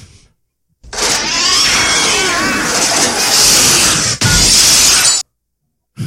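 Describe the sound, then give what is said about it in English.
Glass shattering as a chunk of ice smashes through a house window, a film sound effect: a long, loud burst of breaking and crashing, then a short second burst after a brief break. “That's the ice missile shooting somehow sideways into the house next door.”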